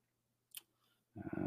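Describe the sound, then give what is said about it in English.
A single sharp, faint computer mouse click while clicking through presentation slides. A louder sustained sound follows shortly after. “I have to click here. I have to click there. And it would be nice if it would switch more quickly than this.”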